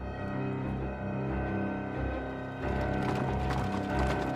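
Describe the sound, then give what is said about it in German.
Clip-clop of horse hooves as horse-drawn carriages, four of them carrying a group of men, drive along. The trotting is steady and rhythmic over a dense tonal bed that grows busier in the second half. “Lestrade hatte zehn Mann in vier Kutschen mitgebracht und gemeinsam fuhren wir zur höchsten Stelle des Hemworth Hill, zur Corley Grange Schule für Jungen.”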